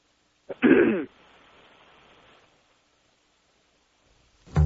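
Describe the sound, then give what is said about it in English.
A man clears his throat once in a short, rough burst, followed by a faint steady hiss that trails off into silence. “Clearing his throat. Getting ready to make his appearance on the air.”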